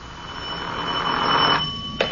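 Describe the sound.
A telephone ringing with a steady electronic ring tone lasting about two seconds, ending with a brief sharp click.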